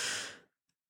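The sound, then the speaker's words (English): One deep, breathy inhale during a breathing exercise, a loud airy rush that fades out within about half a second, followed by a faint click and silence. “Here we go. Inhale all the good things.”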